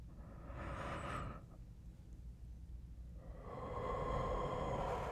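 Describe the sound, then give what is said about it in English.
Deep breaths drawn in by a person on instruction: a soft, airy breath near the start, a pause, then a longer and louder rushing inhale toward the end, faint overall. “Inhale for me.”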